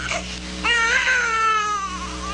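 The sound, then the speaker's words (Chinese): An infant cries with a wavering, high-pitched wail that swells after a short, thinner start. It continues steadily over a constant low drone. “这时候忽然听到了婴儿的啼哭声，”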